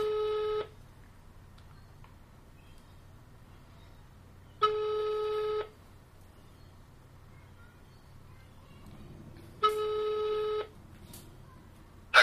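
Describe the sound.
A telephone ringback tone plays on speakerphone: three even, steady tones, each about a second long, separated by roughly four-second gaps of faint background hum.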